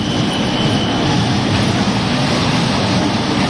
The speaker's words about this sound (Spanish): Este era el sonido de uno de esos tranvías